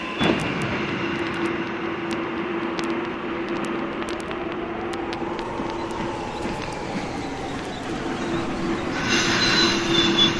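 A train at Boulogne railway station, its wheels squealing in sustained high tones over a steady rumble, with a few sharp clicks early on and the noise swelling louder near the end.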